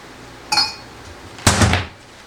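A coffee cup is handled and set down in two distinct knocks. The first is a short ringing clink, and a second later comes a longer, fuller clatter.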